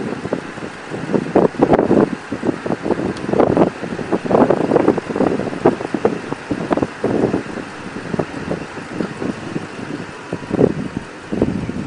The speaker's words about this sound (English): I know this wind is probably tearing this camera, the audio, up on it.